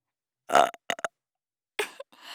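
A loud, drawn-out burp with a deep, throaty rattle, followed by a few short, quieter vocal bursts and a breathy sound near the end.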